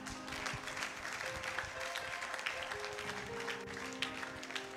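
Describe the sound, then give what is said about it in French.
A faint spell of applause as a gathering claps in acclamation of God, made of many quick, irregular hand claps blending into a soft, continuous patter. “Acclame Dieu.”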